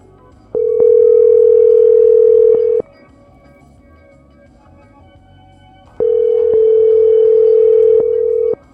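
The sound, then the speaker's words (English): Telephone ringing tone on the line: two long, steady, buzzing rings of about two seconds each, separated by a pause of roughly three seconds. Loud and alone, with no voices. “He's on the phone now.”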